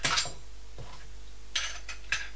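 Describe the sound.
Metal teaspoons clinking and clattering as they are handled, a few light, bright chinks spread out with gaps between them, fairly faint.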